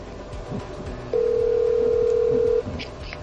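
A telephone tone sounds while a rejected call is being redialed. One steady, even tone holds for about one and a half seconds and rises clearly above a background of hum and faint clatter.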